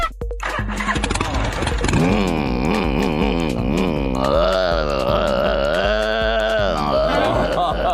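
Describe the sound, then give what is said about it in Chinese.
A human voice imitates a Harley motorcycle engine with a low, throaty, buzzing drone that wavers rhythmically in pitch and holds steadily for several seconds. “还有就模仿那个哈利摩托哦， 摩托。”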